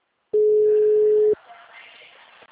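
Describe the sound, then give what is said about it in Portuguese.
A telephone ringing tone on a call that goes unanswered: one loud, steady, mid-pitched tone lasting about a second, then a faint, quiet line hiss with no reply. “O dela tá tocando, mas não atende.”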